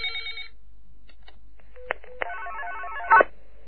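An incoming call rings on a telephone. A short electronic tone opens, a couple of soft clicks follow, and then a single warbling ring burst of about a second plays before it cuts off into silence.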